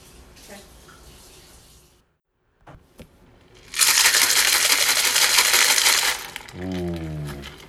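Beer pours into a glass: after a few soft clicks and a pause, a loud rushing hiss of liquid runs for about two seconds, then gives way to a bubbling, gurgling finish.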